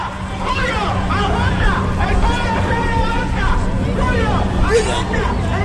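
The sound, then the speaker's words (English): Crowd babble and traffic noise fill a busy downtown Charlotte street during the 2012 Democratic National Convention: many overlapping voices and vehicle rumble, loud and steady throughout. “This was the sound of downtown Charlotte last week as a who's who of the Democratic Party descended on the city for the 2012 Democratic National Convention.”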